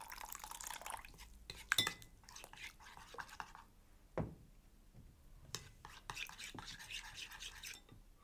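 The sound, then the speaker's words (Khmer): Water is poured into a flour batter for frying mushrooms. Faint liquid trickles and small splashes come in scattered bursts under quiet, soft speech. “ខ្ញុំសូមស្ថែមទឹកបន្តិចទៀតដើម្បីឲ្យវាមានភាពងាយស្រួលក្នុងការចៀន”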